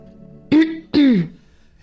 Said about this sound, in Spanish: y carraspeo.